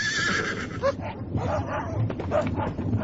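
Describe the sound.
Hounds bark in short, sharp yelps within a busy, dense mix, with a horse whinnying and voices heard at times.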